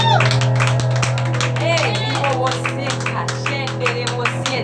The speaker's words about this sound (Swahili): pigie yesu makofi